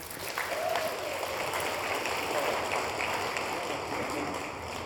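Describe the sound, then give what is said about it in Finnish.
Audience applause for a house band rolls steadily as a dense, even wash of clapping that holds at the same level throughout, with no voices standing out. “Vielä kerran, aplodit heille.”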